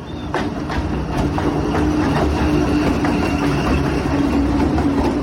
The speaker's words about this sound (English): And when I'm walking along the train tracks when the train goes past,